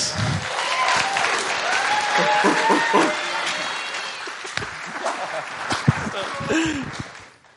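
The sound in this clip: Applause from the audience at a church youth camp service welcoming a young speaker: loud, dense clapping with scattered voices and a few laughs that holds steady, then tapers off near the end.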